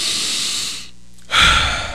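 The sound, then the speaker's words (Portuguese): A deep breath: a long airy inhale, a short quiet pause, then a stronger, fuller exhale. “Respire fundo, ó.”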